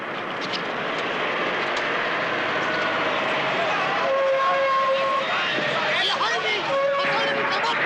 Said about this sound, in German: da kommen Lastwagen. Los, die erst rollen über die Straße.